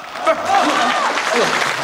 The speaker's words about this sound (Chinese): 这不是，哎呦，您还给我鼓掌，这是什么？